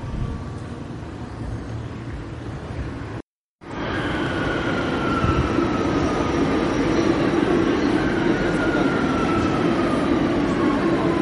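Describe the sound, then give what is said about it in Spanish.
Rumble of a metro train ride: a steady, dense rolling noise with a high whine that falls slowly. The sound cuts out once, briefly, near the start. “Pongo rumbo allí, pero primero cojo el metro.”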